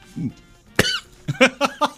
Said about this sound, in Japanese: むせたわ、もう本当に。